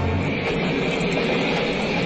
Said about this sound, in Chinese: 列车驶过大桥，奔驰在雪原上